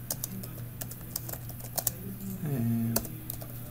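Fingers type on a computer keyboard while writing unit test code: quick runs of sharp, crisp keystroke clicks with short pauses, over a low steady hum.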